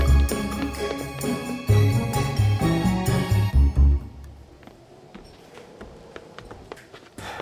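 Footsteps climbing a long staircase: a steady run of rhythmic, heavy thuds for about four seconds, then the sound drops to a quieter, sparser stretch.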